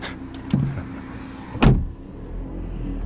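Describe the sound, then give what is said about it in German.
A car pulls away, a sharp thud followed by a low engine rumble that builds and holds steady to the end. “Klaus trat erleichtert aufs Gas.”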